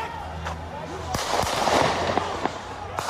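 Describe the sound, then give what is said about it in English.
Gunshots ring out during a street riot in Kenosha as a man fires at approaching people, with several sharp cracks spaced irregularly over a noisy background with voices. “you can see him shooting off some shots there at the people who are approaching him”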